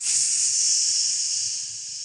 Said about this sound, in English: It's the sound of putting a nice egg into some oil when it's nice and hot.